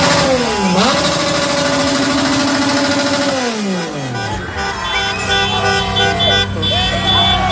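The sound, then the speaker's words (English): Motorcycle engine revving loudly outside a hotel at night, producing sustained buzzing, wavering tones that drop in pitch partway through amid dense, loud noise. “That was a motorcycle. They were revving a motorcycle.”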